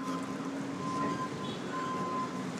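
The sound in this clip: A subway train at the Hollywood and Western metro stop produces a steady rumbling drone with a thin electrical whine running through it, unbroken for the whole stretch.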